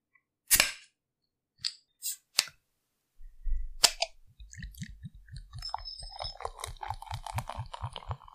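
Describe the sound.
A bottle of Bayreuther Hell lager being opened: a few sharp, isolated clicks, then a long run of quiet, regular gurgling pulses mixed with crisp ticks.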